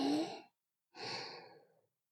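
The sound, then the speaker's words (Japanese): Two slow, deep breaths, soft and airy: a short inhale, then after a pause a longer exhale that gradually fades out. Quiet and close, with no other sound. “ゆっくり深呼吸してみようか。吸って、”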